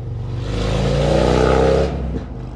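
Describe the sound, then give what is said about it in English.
A car drives by loudly with its engine revving hard, a sustained roar that swells, holds strong, then drops away abruptly near the end. “Yeah, if you guys couldn't hear that, that some guy just drove by.”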